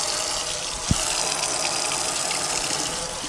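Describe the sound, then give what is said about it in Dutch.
Tap water runs from an opened faucet in a steady, even hiss and gush, with one brief knock early on. “Heel simpel, kraantje open doen.”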